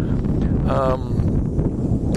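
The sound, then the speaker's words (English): Wind buffeting a microphone outdoors: a loud, steady, low rumbling roar that runs through the whole clip, with a voice briefly heard under it. “Sorry, there's a wind.”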